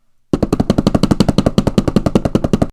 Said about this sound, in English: Now that's a drum roll.